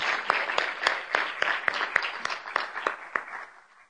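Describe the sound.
An audience applauds to welcome speakers onto a stage at an event. The clapping is brisk and moderately loud, with individual claps standing out, and it tapers off toward the end.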